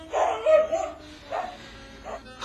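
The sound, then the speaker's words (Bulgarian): A medium-sized stray dog barks in a few short bursts separated by brief pauses, the first burst longer and choppier than the rest, with no other sound around it. “И... и още едно куче. Още едно куче. Средно голямо. Средно голямо. Улично. Улично.”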